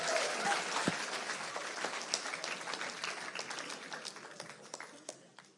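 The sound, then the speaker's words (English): An audience welcomes a speaker at an evening Christian youth gathering with dense, sustained clapping that gradually tapers off. “So without further ado, let's give Mac a warm DCCYC welcome.”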